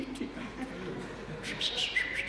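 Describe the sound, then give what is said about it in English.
Sparrows chirping at a bird feeder: a few short, high chirps come in the second half over a low, murmuring background. “And it's these birds, little sparrows, oh, they love the bird feeder. So many, they're always just coming, tweet, tweet,”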